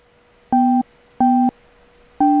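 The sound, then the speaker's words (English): Electronic call tone from a Skype call attempt: three loud, steady beeps of equal length with even pauses between them, heard alone. “I am going to try to call him via the Skip Skype.”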